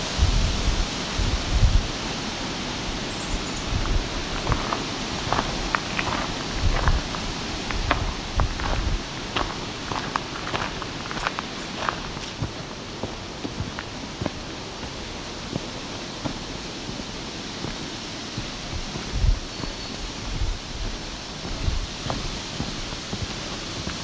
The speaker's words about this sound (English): Aspen, very loud trees in the wind, doesn't matter how much wind, it's going to sound like a lot.